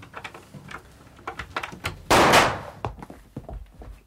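A door is unlocked inside a building, with a string of small clicks and rattles, then one loud, broad thud midway and a few fainter knocks afterward, with no voices.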